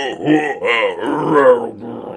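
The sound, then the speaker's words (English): A voice imitates a creature's huge heaving breath as a long, voiced, groaning growl that rises and falls in pitch over about two seconds, with a few swells and no words. “It takes in a huge heaving breath.”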